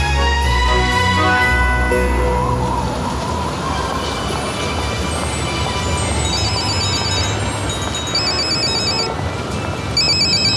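A telephone ringtone rings before a call in a Christmas nativity play. It is a loud, steady electronic ringing of bright repeating tones that runs alone for the whole stretch.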